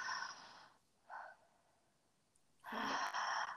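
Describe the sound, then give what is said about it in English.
Soft exhales out through the mouth during a breathing exercise: three airy, breathy bursts separated by quiet gaps, the last one longest and strongest. “like the breath is like in through the mouth, out through the mouth, and the exhale should be really soft”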